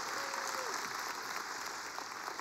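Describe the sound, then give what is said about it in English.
Audience applause: a dense, continuous patter of clapping that stays steady and fairly loud throughout, with no breaks. “Give all these guys another big round of applause.”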